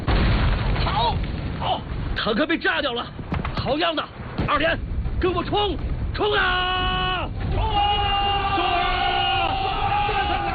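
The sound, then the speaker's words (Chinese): A hand grenade explodes and destroys a tank in a wartime battle, a dull boom buried among loud shouting and yelling soldiers, whose strained cries dominate the scene. “往那个王八盖子里边扔，好， 好， 坦克被炸掉了”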